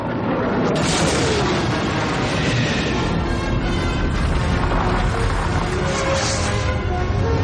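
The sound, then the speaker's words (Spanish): Sci-fi sound effect of a spaceship exploding into pieces: a loud, dense roar of crashing, rumbling noise that holds steady throughout, with no separate blasts standing out. “La nave de Java explota en pedazos.”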